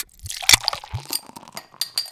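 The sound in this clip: Someone cracks open a Moondog Craft Brewery Pav Is Ours Pavlova Pale: a sharp crack early on, followed by brief fizzing and light clattering taps.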